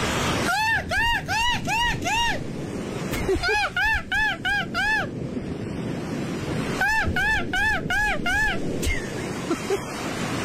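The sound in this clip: A man's voice imitates a seagull, letting out three bursts of rapid, high, arching squawks, each run of cries separated by pauses, over a steady breathy rush of background noise.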